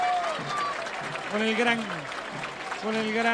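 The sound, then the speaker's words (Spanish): Crowd applause rises from the stands as the Independiente Rivadavia football squad leaves the pitch. It runs as a steady wash beneath a male commentator speaking throughout. “Se va aplaudido el plantel de Independiente Rivadavia, lo mismo, más allá de irse con la cabeza abajo, se va aplaudido la Lepra, no es para menos,”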